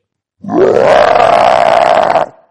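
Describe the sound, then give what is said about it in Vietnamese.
A single long, loud, gravelly roar from a monster, a hedgehog-like spiny beast three zhang tall with a pointed head and six ears. The roar rises sharply at the onset, then holds a steady, harmonic growl for nearly two seconds before cutting off. “Con quái vật gầm lên một tiếng chấn động lòng người.”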